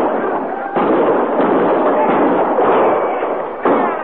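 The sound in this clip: Gunfire from soldiers' guns: a dense, continuous crackle of shots, loud and sustained for the whole stretch, with sharp fresh surges near the start and again near the end.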